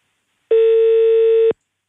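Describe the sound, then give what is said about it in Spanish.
A telephone ringback tone plays while a call is being placed: a single loud, steady tone lasting about one second that starts and stops abruptly, with silence before and after. “estamos llamando a la región del Maule.”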